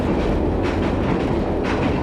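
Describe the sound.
A passenger train running on rails near Manzhouli gives off a steady, dense rumble and clatter that continues without a break, with no talk.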